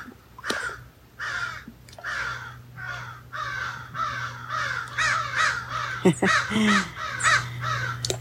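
Crows cawing, a harsh, raspy run of many loud caws in a fairly steady rhythm, with a few quick overlapping calls near the end.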